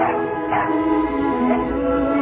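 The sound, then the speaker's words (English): A dog by a fence gate in front of an old two-story house gives a few short barks and yips over a continuous, steady background. “she steps through a fence gate and past a dog to an old two-story house”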